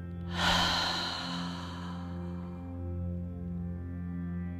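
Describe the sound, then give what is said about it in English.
A single strong breath in a yoga breathing exercise, an airy rush that swells quickly and then fades, followed by softer, steady breath noise over a low, sustained drone. “Inhale through the nose. Exhale, open the mouth and empty out.”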